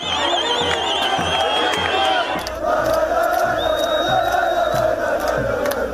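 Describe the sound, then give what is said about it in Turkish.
Football fans celebrating in the crowded streets of Erzurum after promotion to the Süper Lig: a loud, steady roar of shouting voices, with high whistling tones early on. “Erzurum sokakları tıklım tıklımdı.”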